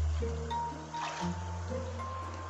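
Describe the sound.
Running water flows steadily while someone washes, a continuous soft hiss and trickle that holds at an even level throughout, with no talk over it.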